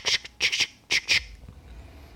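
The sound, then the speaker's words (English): Harsh radio squawk from a radio set relaying call-sign messages, heard as a few short, loud bursts of crackly static in quick succession, then a faint hiss. “Within 1 hour, suddenly there's another squawk.”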